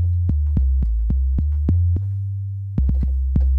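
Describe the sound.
808 bass notes with cut-itself enabled, each new hit cleanly stopping the previous one. The deep, loud notes play in a quick pattern with stepping pitch, pause briefly, then resume in a tighter run.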